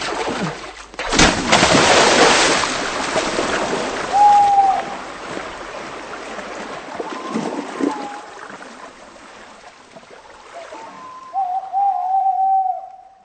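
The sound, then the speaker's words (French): A single gunshot in a dramatized murder of Louis II of Bavaria: one sharp crack early on, followed by rustling noise and a few short bird calls. “Vous aurez sans doute entendu le coup de feu, il s'agit donc d'un meurtre.”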